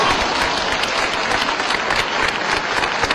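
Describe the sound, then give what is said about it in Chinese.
Audience applause at a live stage performance: dense, steady clapping from a crowd, loud and even throughout with no voices over it. “掌声，都别误会啊，我不是要掌声，我觉得观众这个热情的掌声是献给刚才为大家表演的那些艺术家的。”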